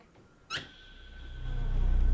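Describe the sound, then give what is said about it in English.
A cabin door is pushed open a little, giving off a short, sharp squeak. A low rumble then swells steadily louder beneath it. “She tries the handle and pushes the door open a little.”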